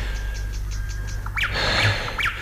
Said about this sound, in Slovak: Spievajú vtáci.